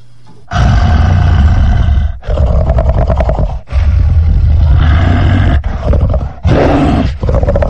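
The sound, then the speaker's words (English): A processed roaring monster voice for a Doctor Who werewolf: a deep human growl with effects added, so a voice imitates a beast. Several long, loud, rough roars follow one another with brief gaps between them. “You really do sound like a big hairy beastie. It must be fantastic, actually, to have this kind of creative input on a big show like Doctor Who.”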